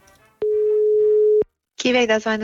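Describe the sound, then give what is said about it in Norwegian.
Telephone ringing tone while placing a call to a supermarket employee: one steady mid-pitched tone lasting about a second, then a short silence, then a voice answering and speaking. “Så vi må ringe en av de ansatte på Kiwi i Hegdehausveien.”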